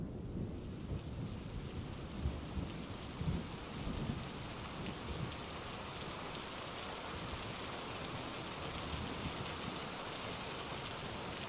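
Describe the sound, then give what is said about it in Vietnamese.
Heavy rain pours down in a thunderstorm, a dense and steady hiss of downpour with low rumbles beneath, continuing without voices. “Mưa như trút nước đổ xuống khiến mọi thứ mịt mờ. Sấm chớp đi đùng tạo nên những vệt sáng kéo dài.”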